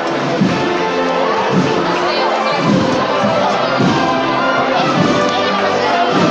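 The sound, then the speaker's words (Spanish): Crowd clamor from spectators at a Holy Week procession in Jaén, with a march played under the dense, steady wash of voices and shouts as the women bearers carry the float over a carpet of flowers. “Y grande de corazón, creo que es la marcha que está sonando entre la algarabía aquí del público”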